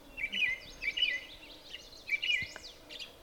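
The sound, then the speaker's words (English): An American robin sings at the edge of a bog: a few short, high, warbling phrases separated by pauses, faint against a quiet background. “That's the sound of a robin. Yeah, the robin that you see on your lawn. This one's out at the edge of a bog.”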